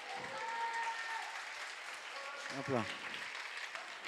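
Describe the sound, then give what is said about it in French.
Audience applause fills the hall at the final of an eloquence contest at the Agora. The clapping is steady and faint, with a few voices briefly audible over it. “donc on pourrait remercier l'Agora, s'il vous plaît, faites du bruit pour l'Agora.”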